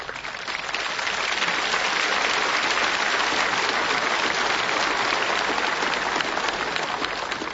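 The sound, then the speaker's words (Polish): Applause from a crowd at a gathering, a thick, continuous patter of clapping that swells in quickly and holds an even level for about seven seconds, with no talk over it. “te brawa dla tej pani Joanny Wojciechowicz”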